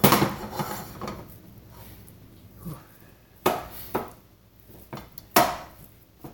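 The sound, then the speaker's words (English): Wooden spoon breaking an ingredient into pieces in a pan for a pasta dish, heard as a few sharp, irregular knocks and scrapes spread among quieter kitchen clatter. “Now, the way it's used in this recipe, you kind of have to grab a wooden spoon or something and break it into pieces.”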